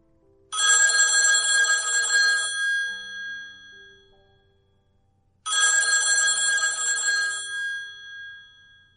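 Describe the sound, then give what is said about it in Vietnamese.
A telephone in an office rings with a bright, old-style bell in two long rings of about two and a half seconds each, separated by a pause, clear and alone. “ở phòng làm việc thì có chuông điện thoại.”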